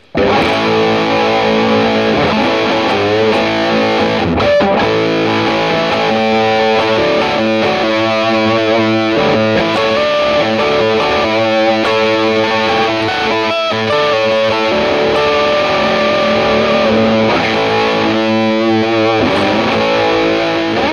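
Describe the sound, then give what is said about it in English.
A Burns electric guitar plays a familiar phrase through heavy distortion, loud and sustained for about twenty seconds, mixing ringing chords with quicker note runs and a brief dip in the sound early on, with no voices. “Playing a time-honoured phrase, the Burns will sound like this. I haven't changed a thing.”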